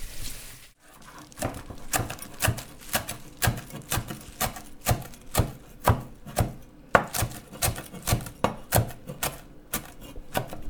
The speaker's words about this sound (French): on émince le persil très très finement en faisant bien attention aux doigts